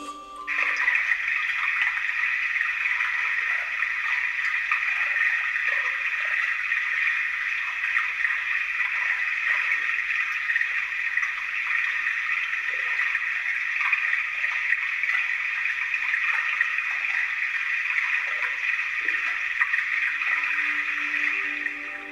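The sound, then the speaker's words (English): Underwater sound beneath ice, recorded with a hydrophone: a steady, unbroken wash of hissing, rushing noise that holds at an even loudness for about twenty seconds, with no distinct separate events. “I also used a hydrophone and that allowed me to record underwater sound, so we've got a little short extract here of the sound under the ice.”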